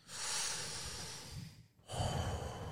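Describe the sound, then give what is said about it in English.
A person takes a deep breath: two long, loud, airy breath sounds separated by a brief pause, with no talking. “Take a deep breath.”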